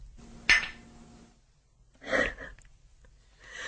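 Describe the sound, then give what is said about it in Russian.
Glasses clink once quietly in a toast, a sharp tap with a short ring, followed by soft breaths and a sigh in an otherwise quiet setting. “Ну, чокнемся”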